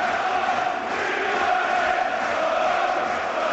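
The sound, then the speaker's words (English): A Charlton football crowd roars its support during a match as projectiles are thrown, a sustained mass of shouting voices with a steady chant-like drone that barely dips. “And you can hear, obviously, the Charlton crowd backing up the throwing of projectiles with vocal”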